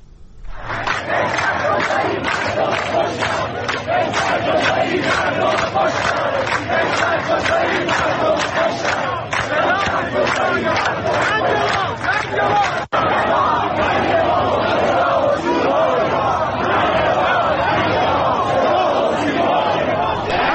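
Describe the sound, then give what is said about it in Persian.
Protest crowd in Iran chanting political slogans against the state broadcaster and the police, many voices shouting together in a loud, sustained, rhythmic chant that repeats many times over a constant crowd roar. “منتها شعارهای دیگری که اونجا مردم سر میدادن رو هم صداش رو بشنویم.”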